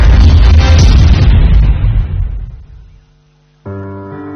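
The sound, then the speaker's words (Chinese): A loud boom bursts from a traditional popcorn popper as it is opened. The blast hits hard at once and fades over about three seconds, and music begins after a short quiet gap. “爆米花出锅的巨响，是儿时小伙伴欢聚的集结号。”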